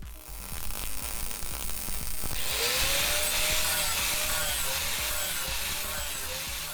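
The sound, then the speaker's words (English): A high school welding lab at Middleton High School on a school day: a low hum and scattered clanks, then a loud, steady crackling hiss of welding takes over with a faint wavering whine above it. “Here's what the welding lab sounds like now on a school day.”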